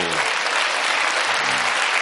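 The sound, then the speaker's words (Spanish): A comedy show audience applauds after a political joke. Thick, continuous clapping fills the moment at a steady loud level with no break. “Y la gente ha dicho, yo no lo entiendo, pero aplaudo porque el de al lado lo ha pillado.”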